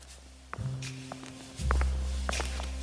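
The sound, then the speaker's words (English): A few slow, hollow footsteps of shoes striking a hard floor on a base at night, spaced unevenly over a steady low hum. “I'm alone, except for the sound of my shoes on the hard floor. They make a hollow, artless, striking sound, like a pitiless pendulum, marking off each passing moment of life.”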